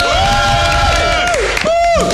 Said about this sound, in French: Bienvenue à tous. Sous vos applaudissements. Sous vos applaudissements.